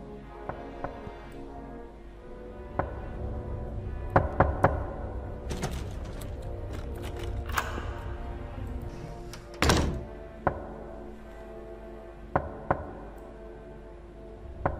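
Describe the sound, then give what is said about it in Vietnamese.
Rapid, relentless knocking on a door in a quiet night: many heavy thumps and knocks in uneven bursts, some loud and sharp, others dull and softer, with no voices. “Tiếng gõ cửa dồn dập không ngừng.”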